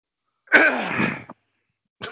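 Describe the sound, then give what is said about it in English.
A single harsh throat clearing, one loud rasping burst under a second long, followed by silence and the start of another sound. “Thanks for that throat clear.”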